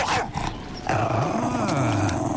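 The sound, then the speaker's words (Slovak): A dog growls in a low, wavering rumble that starts about a second in and carries on steadily to the end, with a short quieter stretch before it. “Chyci svojho psa sami. Chce rozkmásať mňa a moje dedičstvo.”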